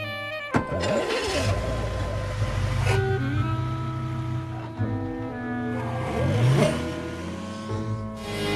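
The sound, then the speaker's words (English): Engine of a yellow Volkswagen Beetle driving away, a low rumbling motor that swells and fades beneath sustained orchestral music. “Herbie flicks his headlamps at the yellow bug. Sally climbs into it and drives away.”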